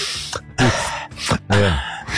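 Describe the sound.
A voice imitates someone sucking their teeth after eating and then breathing in deeply, with short hissing, sucking bursts and a couple of longer, breathy inhalations, moderately loud and with no ordinary talk.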